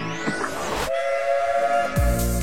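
A steam locomotive whistle at a heritage railway gives one sustained, steady-pitched blast of about a second amid rail noise, followed by lower rumbling tones.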